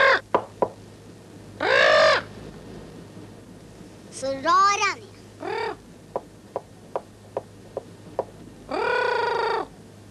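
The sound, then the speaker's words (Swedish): A parrot squawks in a few loud, raspy, harmonic bursts, one with a warbling up-and-down call. A run of short, sharp clicks falls between the squawks over a faint low hum. “Papegoja. Hon kan säga far ända in i baljan.”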